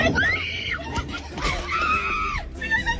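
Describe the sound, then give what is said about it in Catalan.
Excited, high-pitched screaming comes in loud, piercing bursts that rise and hold, with shrill overlapping cries throughout. “Ai, per favor, quin crit. En la lengua. Crits emocionades.”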